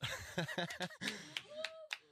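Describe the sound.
Scattered hand claps in a radio studio during an Independence Day show, a few sharp slaps at irregular intervals mixed with chuckling and talking voices.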